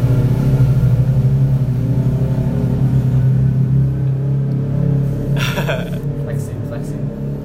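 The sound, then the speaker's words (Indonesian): A BMW car drives past with its engine revving, a steady low rumbling drone with a humming harmonic tone, a brief noisy burst near the end, and voices in the background. “ada BMW lewat ada BMW lewat”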